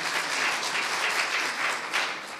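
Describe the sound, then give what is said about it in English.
A round of applause breaks out for a boy as he returns to his seat, a steady, dense wash of clapping from many hands that stays at an even level for the full clip, with no voices standing out. “Give him a round of applause, yes.”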